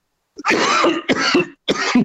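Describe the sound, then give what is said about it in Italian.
Coughing from someone choking on gold dust that went down the wrong way, three rough, loud bursts of hacking coughs with short gaps between them and no speech. “sto tentando di soffocare. T'è andata di traverso della polvere okay.”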